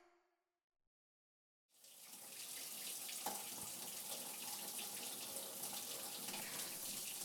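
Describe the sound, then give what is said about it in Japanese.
Water runs from a tap to rinse someone off, starting after a brief quiet moment and then pouring as a steady, loud, hissing stream that continues unbroken to the end. “洗った？じゃあ一緒に流しちゃいましょうか。”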